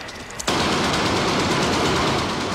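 Rapid gunfire aimed at a man near an altar erupts abruptly after a brief quiet moment, then runs as a loud, dense, unbroken clatter until the end.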